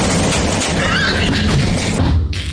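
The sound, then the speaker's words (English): A karaoke machine explodes with a loud, sustained crashing roar of broad noise. The roar stays dense for over two seconds and then thins out abruptly at the end. “The karaoke machine explodes.”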